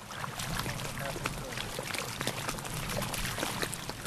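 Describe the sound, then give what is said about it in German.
Water lapping against the shore of the Nandikadal lagoon in northern Sri Lanka, a steady, even wash of soft splashing that continues without pause. “Nur das Wasser schwappt ans Ufer. Ansonsten herrscht Totenstille.”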